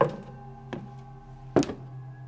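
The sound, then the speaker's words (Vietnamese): Dull knocks on wood from under the bottom of a boat: three hollow, separate thunks at uneven spacing, the last one the loudest, with near silence between them. “Cứ như là có cái gì va vào gỗ, hoặc cũng có thể là tiếng người ta đi ở trên sàn.”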